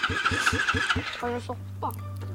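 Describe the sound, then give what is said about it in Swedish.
A hot rod car engine cranks with quick rhythmic pulses, then catches and settles into a steady low idle as it warms up, with brief voices at a low level. “Vi återkommer med lite direktsänd hot rod. Ja, men sätt igång och varmkör ni.”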